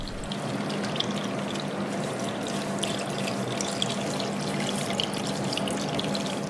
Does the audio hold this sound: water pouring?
yes